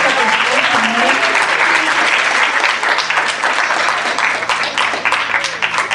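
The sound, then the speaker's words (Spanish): Audience applause at a university campus event in Mexico City, dense and steady clapping from a large crowd that holds at full strength for the whole stretch, with some voices mixed in. “Que se oiga ese aplauso, chicos, por favor.”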